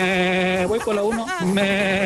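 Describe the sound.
A human voice imitates a sheep bleating, a nasal, wavering 'baa' held for about two seconds with the pitch dipping and recovering partway through.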